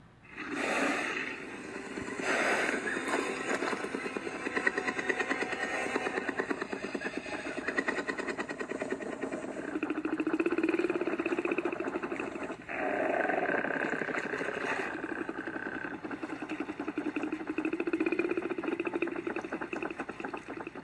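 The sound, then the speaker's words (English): A simulated Tyrannosaurus rex mating call: a low, throbbing rumble like whirring helicopter blades, pulsing continuously for about twenty seconds in long swells with a few brief breaks. “make low rumbling noises that would sound similar to the whirring blades of a helicopter. So realistically, a T-Rex's mating call would sound like this.”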